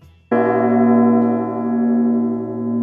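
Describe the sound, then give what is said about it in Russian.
A doorbell in a hallway rings with a single loud, sustained tone. It starts abruptly and holds steady with a rich, bell-like hum. “И грянул в прихожей звонок. Он показался неожиданно громким, наверное, потому что прозвучал в секундной тишине между куплетами песни.”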